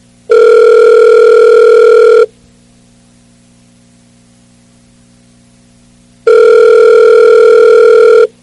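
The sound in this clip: Ringing tone of an unanswered telephone call: two long, steady, buzzing rings of about two seconds each, separated by a long silence, over a faint hum.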